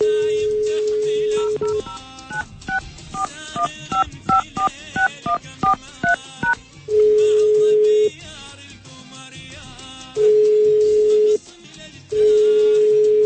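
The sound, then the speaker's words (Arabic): An outgoing telephone call is dialed and goes unanswered: a steady dial tone, a quick run of keypad beeps, then three long, even ringing tones separated by pauses. “راح نحاول الآن الاتصال به.”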